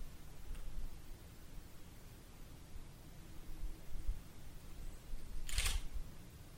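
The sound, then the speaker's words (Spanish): A camera lens fails to take a photograph in total darkness in Belchite. It gives a faint tick early on and one short, sharper mechanical burst near the end over steady low hiss. “Quiero aclarar que eso que estáis escuchando es otra vez el objetivo que no es capaz de tirar la fotografía, ¿eh? No es un ruido...”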